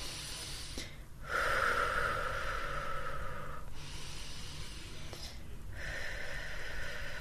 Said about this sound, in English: And so I take some nice deep breath in at the same time.